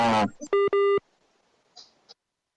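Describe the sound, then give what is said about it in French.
A telephone busy tone after a dropped call: a brief voice fragment, then two short, clear beeps, followed by faint scattered sounds. “Allô? On a perdu la ligne, semble-t-il.”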